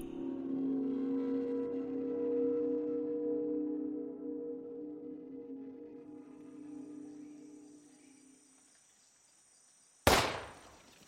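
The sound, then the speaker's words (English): A single gunshot booms through the trees as a hunter fires at squirrels: one sharp, loud crack near the end with a decaying tail, following a long stretch of steady humming tones that fade away. “Earl's voice was overpowered by the resounding boom that echoed through the trees. In the span of 1 hour, he had wasted 4 bullets shooting at squirrels that were too fast for him.”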